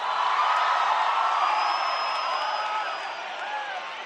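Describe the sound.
Concert audience cheering and whooping: a dense, steady roar of many voices with a few high, whistle-like whoops rising above it, easing slightly toward the end.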